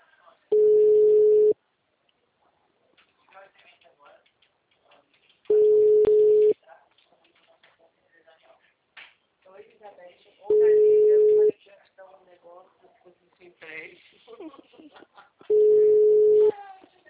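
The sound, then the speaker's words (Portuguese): Telephone tone after a dropped call: four steady, mid-pitched beeps, each about a second long and spaced roughly five seconds apart, with a voice talking in the gaps between them. “a ligação caiu.”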